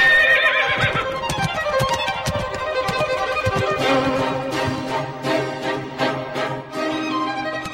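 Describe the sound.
A horse pulling a carriage whinnies loudly at the start, with a falling cry, then sets off with rhythmic clip-clopping hooves under continuing harmonic tones.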